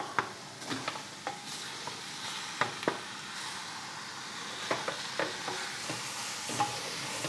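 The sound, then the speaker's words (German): Meat is stirred back into a pan of glassy, browned onions, giving a faint, steady sizzle with many soft scrapes and clicks of a utensil throughout. “Und dann packen wir das Fleisch wieder dazu.”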